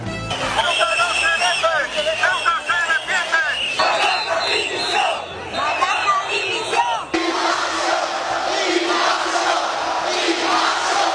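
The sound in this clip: A crowd of thousands fills a city square in Spain at a rally supporting Ceuta. Loud, rhythmic chanting and shouting runs through the first part, then gives way to a broad, sustained roar of voices.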